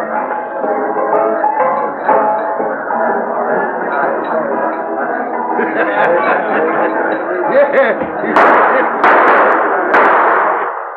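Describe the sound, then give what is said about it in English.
Gunshots fired in celebration in a gold-prospecting town: a few sharp, loud cracks near the end, cutting through a continuous din of excited voices. “What's all the shooting about?”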